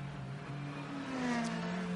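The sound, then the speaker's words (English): A Ferrari race car pulling away from a pit stop during a sports car race, its engine a fairly faint, continuous drone whose pitch shifts slowly as it leaves. “Off and away, Albert Costa goes in the Conquest Racing Ferrari.”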